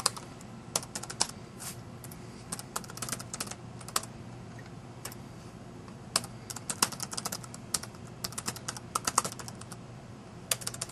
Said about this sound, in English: Type the URL correctly.